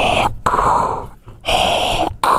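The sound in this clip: A man's voice imitates heavy, rasping mechanical breathing: a few long, harsh hissing breaths drawn in and pushed out in a slow, steady rhythm, fairly loud and alone.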